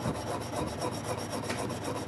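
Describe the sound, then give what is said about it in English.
A chainsaw being cleaned by hand outside a tribal forestry office: continuous rasping, brushing scrapes with a faint rhythmic pulse, fairly loud and steady throughout. “is cleaning his chainsaw, first by hand, next with an air compressor.”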